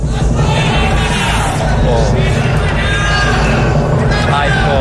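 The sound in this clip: A large audience at a Benidorm Fest 2025 song contest semifinal chants a contestant's name, a loud, dense wall of crowd voices and yells that stays steady and unbroken throughout.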